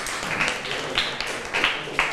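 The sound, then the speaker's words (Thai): Students clap in a classroom, an uneven spread of hands with a few sharper, louder claps standing out against the softer patter. “นักเรียนปรบมือให้กลุ่มที่1หน่อย”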